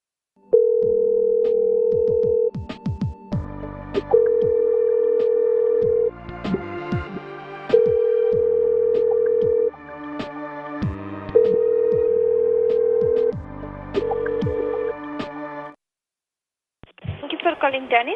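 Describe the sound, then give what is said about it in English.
A telephone line tone before a call plays as a series of long, steady low beeps separated by short gaps, while a voice talks over it throughout. “Oh, I gotta set this dial before I call so I don't blow out my ears.”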